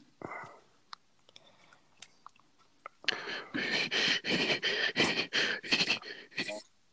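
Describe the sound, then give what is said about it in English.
Labored, struggling breathing from a man: a few faint clicks and small breaths come first, then a long run of loud, ragged, rasping gasps in quick, uneven rhythm. “That's a symptom of COVID-19. This guy is struggling to breathe.”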